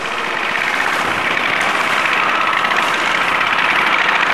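A small motorcycle engine arriving at a market, heard as a continuous loud droning rumble with a gritty, rattling texture that holds steady throughout, with no voices.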